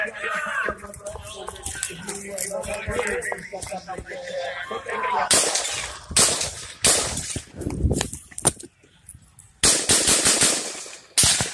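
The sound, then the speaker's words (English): Gunfire recorded in a witness video of a shooting: many sharp, loud shots in rapid, irregular bursts, separated by brief quieter gaps. “The first thing I noticed about David's video is that his audio was crystal clear on all of the shots.”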